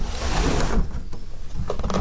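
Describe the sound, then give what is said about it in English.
A window being opened gives a broad, rough scraping rush that cuts off abruptly. Quieter, uneven rumbling and knocking follow. “I think it's time to let in some fresh air. I think it's time to open a window.”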